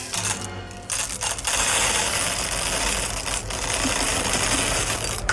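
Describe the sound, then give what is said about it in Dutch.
Coffee beans pour into a coffee grinder, making a dense, continuous rattle of many small hard pieces clattering together. It stays loud and steady for several seconds, with a brief lighter patch near the start and no voices. “Het vullen van de koffiemolen. Oeh, dat is een lekker zen-geluid.”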